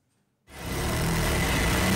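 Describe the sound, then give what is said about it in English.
Sewing machines running in a Cairo workshop that makes Egyptian national flags: a loud, steady mechanical whir starts abruptly after a short silence and then holds even and continuous. “The deeper Egypt go into this World Cup, the busier these sewing machines become. Inside this Cairo workshop, they can't make the national flag quick enough.”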